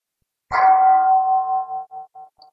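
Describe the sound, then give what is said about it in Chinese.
A bell rung during a meditation session, struck once with a clear, loud ring that sustains a steady tone and then fades in a pulsing, wavering decay, heard alone. “让我们听这个钟声”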